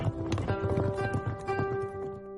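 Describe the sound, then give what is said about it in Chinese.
Hooves of a fast horse galloping with a rider, a rapid, dense clip-clop rhythm that runs steadily throughout at moderate loudness. “骑着快马奔赴张庄”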